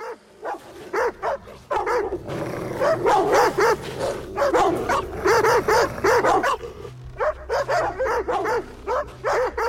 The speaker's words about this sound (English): The huskies are tethered to a stake, barking at White Fang